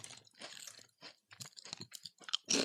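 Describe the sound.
Someone chews crunchy flavoured chips with a cheesy sour cream and onion taste, making quiet, irregular crunches and munching bursts that end in a louder crunch.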